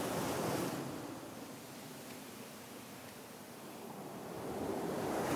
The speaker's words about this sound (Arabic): خلني أرسم لكم بس إن شاء الله البحر ما يخرب رسمتنا.